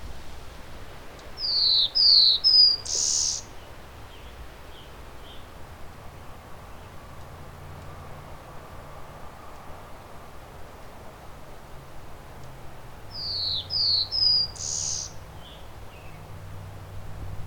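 A bird sings between catching insects: two short bursts of bright, high chirping notes, separated by a long stretch of faint, steady background hiss.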